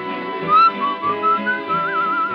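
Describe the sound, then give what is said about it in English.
A person whistles a tune, the clear, wavering melody moving through several sustained and gliding notes over a steady backing of fuller tones. “I was thinking, whistling, it's a very popular thing for Mickey to do.”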